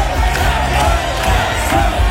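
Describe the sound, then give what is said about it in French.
A crowd cheers and shouts encouragement at a man in traditional Bavarian costume drinking beer. The loud, continuous roar of voices holds steady throughout with scattered whoops. “Il est debout au milieu d'une foule, tout le monde l'acclame, etc.”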